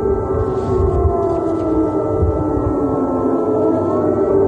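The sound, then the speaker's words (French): Air raid sirens warning of a missile launch, heard in a recording: a sustained, loud, droning wail that holds steady throughout, its pitch drifting slightly lower. “ce que vous entendez, c'est l'enregistrement donc des sirènes qui résonnent quand un missile comme ça est tiré.”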